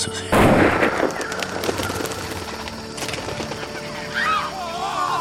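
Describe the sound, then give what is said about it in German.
A sharp, loud gunshot from a kneeling marksman aiming through cut branches cracks out near the start and decays into a rumbling tail, with busy background noise and a few high chirping calls later on. “Er ließ sich auf ein Knie nieder, zielte mit sicherem Halt durch die abgehauenen Zweige, schoss und stand sogleich wieder auf, um nachzusehen.”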